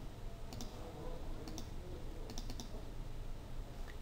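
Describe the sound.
Sparse keystrokes on a computer keyboard as text is entered in vector image editing software: a few faint, light clicks in small clusters over a steady background hiss.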